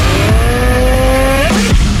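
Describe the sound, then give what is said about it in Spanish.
A CF Moto motorcycle engine revving loudly, its pitch climbing steadily, then dropping sharply as if through a gear change before climbing again, with a continuous roar throughout. “En CF Moto encontrarás motocicletas para cada aventura.”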